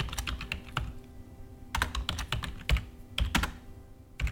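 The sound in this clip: Typing a message on a computer keyboard: quiet, irregular bursts of clicking keystrokes separated by short pauses.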